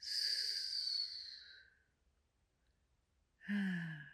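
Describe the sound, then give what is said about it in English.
A deep breath out, a long airy exhale that fades over about two seconds. After a short silence another breath begins; it is soft and alone, with no talk. “let me take a deep breath and slow down. Take a breath with me. Breathe in and out.”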